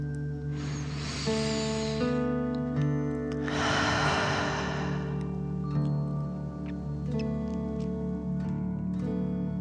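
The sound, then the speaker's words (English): A slow, deep breath in and out during a guided relaxation exercise: two soft airy rushes, the second longer and fuller, heard over steady, sustained musical tones. “Relax and take a deep dragon breath in and out.”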